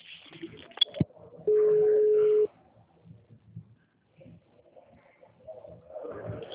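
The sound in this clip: A telephone tone on a line, one steady, even beep lasting about a second. A sharp click comes before it, and only faint low noise follows.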